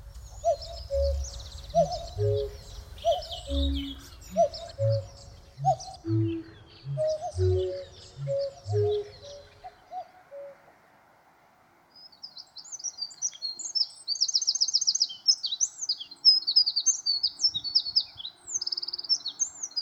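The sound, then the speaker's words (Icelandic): Redwing song from Iceland, where the species sings in regional dialects: a run of lower, repeated hooting calls gives way to bright, rapid, high-pitched chirping phrases that repeat over several seconds, with no voices. “En skógarþrösturinn ekki eini fuglinn á Íslandi sem hefur landshlutabundin einkenni í söng.”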